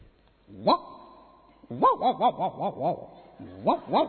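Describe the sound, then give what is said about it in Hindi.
A small puppy barking: a run of short, high yelping yips, one at first, then a quick cluster of about six, then two more, clear and fairly loud with nothing else over them. “छोटा कुत्ते का बच्चा,”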